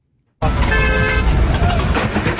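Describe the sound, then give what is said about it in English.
A car horn honks at a pedestrian blown into the street on a windy day: a sudden loud onset, then a short tonal blast over broad roaring road and wind noise that continues to the end. “the only thing the driver could worry about was honking his horn because the guy fell down”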